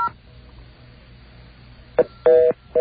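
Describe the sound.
DTMF tones ring out as a telephone number is keyed in on a line: three short electronic beeps, each a steady two-tone pitch, rise out of a quiet hiss, the middle beep held longest.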